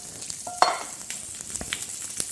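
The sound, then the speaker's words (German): Faint, steady sizzle of food frying in neutral oil in a pan, with scattered small crackles and a brief metallic clink from stirring. “Weil sonst verbrennen die natürlich ganz schnell. Aber soll auch gleich anfangen zu braten.”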